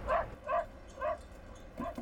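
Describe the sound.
A dog gives a series of short, high yelping barks mixed with whimpers, a few evenly spaced yips followed by two quicker ones close together at the end.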